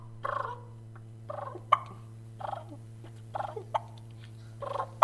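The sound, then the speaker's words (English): Soft turkey clucks and purrs made by a person with a mouth call. Five short rolling purrs alternate with three sharp single clucks, all over a low steady hum. “learn the mouth call and learn the soft call. Clucks and purrs, for instance. I do it with the end of my tongue. And I just put a mouth call in my mouth.”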